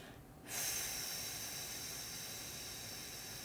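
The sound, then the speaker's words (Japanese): A slow, deep exhale during a breathing exercise done before a performance: after a brief quiet moment, a steady, breathy hiss begins and holds evenly for about three seconds without a break. “最後ゆっくりたっぷり吸って新しい綺麗な空気で体を満たします吐きます”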